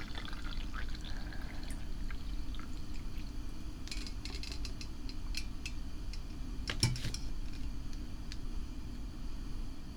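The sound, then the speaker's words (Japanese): Freshly boiled hot water is poured slowly in a steady, continuous stream that stays even in level throughout, with no talk. “続いて沸かしておいたお湯をゆっくりと注ぎまして、”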